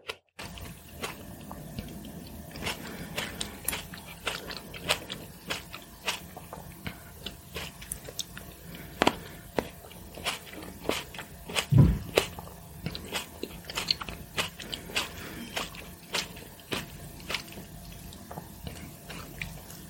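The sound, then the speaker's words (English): Grapes being bitten and chewed: many sharp, wet, crunchy clicks scattered irregularly across the whole stretch, over a low steady background hum, with no talking. “So for this special segment, y'all can listen to me eat some grapes.”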